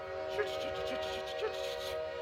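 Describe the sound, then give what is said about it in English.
Voices imitate a train's choo-choo as a steady, whistle-like tone held throughout, with two brief louder swells. “You guys gotta go like this. Choo choo.”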